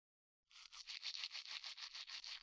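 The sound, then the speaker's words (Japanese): A soft-bristled toothbrush gently strokes a tongue: after a moment of silence, many quiet, rapid, rhythmic scratchy brushing strokes follow in a steady pattern. “柔らかい歯ブラシの毛先で、なでるみたいに、優しく”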